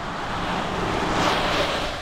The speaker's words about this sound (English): It's raining along a highway that cuts through the small town of Rockville, Utah. Cars roar past.